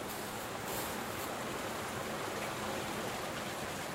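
Water rushes through a mill's diversion channel controlled by a sluice gate, a steady broad hiss and roar of flowing water. It is even and continuous throughout, with no voices.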